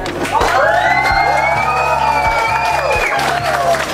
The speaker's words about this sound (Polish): I dla nich wszystkich teraz brawa.